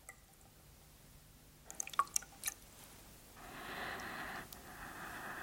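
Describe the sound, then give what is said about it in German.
Hands dipping into water in a washbowl: a few faint drips and splashes, then a soft, steady swish of moving water that carries on to the end. “Ich tauche diese Hände in die Waschschüssel und drücke sie nass ans Gesicht.”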